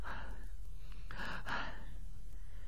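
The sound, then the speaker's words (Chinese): Heavy panting imitated by a storyteller's voice for an exhausted man carried up to a bed: a few rough, breathy gasps and huffs in a continuous, audible stream. “武大郎还在那喘气儿呢”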